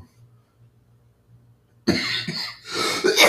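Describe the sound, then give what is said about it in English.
A person coughs several times in a harsh, rough burst of repeated coughs that starts abruptly after a near-silent stretch with a low hum. “I just got done saying I'm finished coughing, and I'm coughing.”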